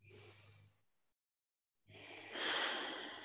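Breath taken during a guided exercise with hands held together and eyes closed: two soft, airy rushes of breath separated by a silent pause, the second longer and louder, swelling and then easing.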